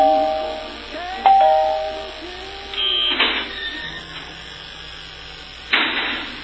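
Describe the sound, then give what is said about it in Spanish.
A doorbell rings with a brief tonal chime, and a few short, noisy bursts follow. “está sonando al timbre”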